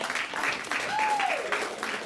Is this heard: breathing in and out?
no